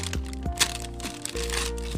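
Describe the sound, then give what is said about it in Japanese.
Crisp cracks and crackling as golden fried bone-in chicken is cut, a few sharp snaps standing out from a steady, faint crunchy rustle. “黄金チキンってあこんな感じなんですねあこれは切るんだな”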